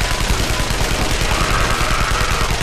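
Rapid gunfire from shoulder-mounted, belt-fed guns shooting cartridge ammunition: a dense, continuous, loud rattle of many shots with heavy low thuds throughout.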